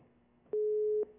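A telephone busy tone sounds after a call drops: one steady, mid-pitched beep lasting about half a second, over a faint low hum.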